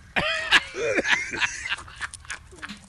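A man heaving and retching: several harsh, strained voiced bursts with gagging throat sounds come in an uneven rhythm, loudest early on and tapering into fainter rasps.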